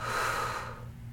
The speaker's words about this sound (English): Take a deep inhale, fill up. Exhale, let it go